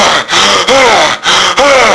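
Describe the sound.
Deep breaths are drawn in and let out in a few loud, rasping strokes, each separated by a short pause, with a slightly wheezy, airy tone.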